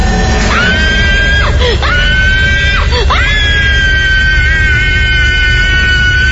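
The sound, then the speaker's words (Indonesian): A person screams in fright: a sustained, high-pitched shriek that dips sharply in pitch a couple of times before holding steady, loud over a noisy background. “Aku refleks berteriak hingga membangunkan teman sekamarku.”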